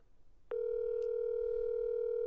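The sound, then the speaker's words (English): A phone tone on an outgoing call: after a soft lead-in, a sharp click gives way to a continuous, steady, unwavering electronic tone that runs, fairly faint, to the end with no talking. “Will he answer? I don't know. He's probably fishing right now. Probably not going to answer.”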